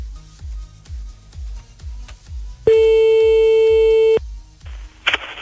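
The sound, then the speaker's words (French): Telephone line tone while placing a call: a single loud, steady electronic tone lasting about one and a half seconds, preceded by a rhythmic low thumping beat and followed by a brief click. “On appelle maintenant”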